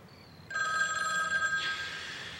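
A telephone rings with a bright electronic warble that cuts in after half a second of quiet and holds steady and loud to the end, with no other sound.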